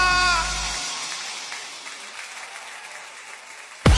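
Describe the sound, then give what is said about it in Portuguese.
Crowd applause at a lively music event: loud clapping that gradually thins and fades over a few seconds, then an abrupt, loud burst of sound at the very end. “palmas forte pro que ele merece.”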